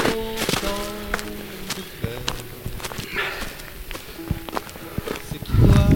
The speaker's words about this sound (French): Changement de décor là, ça s'entend au pas. D'ailleurs, on est dans la neige, mais c'est magnifique.